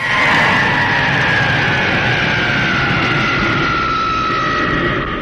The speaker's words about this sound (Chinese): 1980年的9月26号，运十在上海的大厂机场飞向蓝天